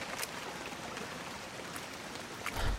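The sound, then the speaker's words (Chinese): Rain falls during the April plum-rain season, heard as a steady, even hiss of drops that carries on unbroken and moderately loud, with no voices. “这鬼天气，又下雨了。不过也是，四月梅雨季节了。”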